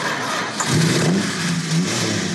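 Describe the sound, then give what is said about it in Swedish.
A Plymouth Fury car engine revs over a steady rumble, its note climbing in a couple of surges before easing back. “Och det här är en Plymouth Fury av samma typ och samma årsmodell”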